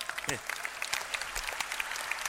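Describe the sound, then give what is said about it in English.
Scattered claps from a few people at the front of a church audience during a service, sparse and uneven, with a voice briefly heard. “There are only three people in front are clapping.”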